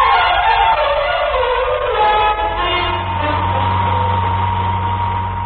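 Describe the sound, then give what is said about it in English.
A car engine runs steadily during a drive to the airport, producing a constant low, rumbling drone that hardly changes throughout, with no voices over it. “You didn't have to drive me to the airport, Mr. Charles. I'm delighted to do it, Johnny.”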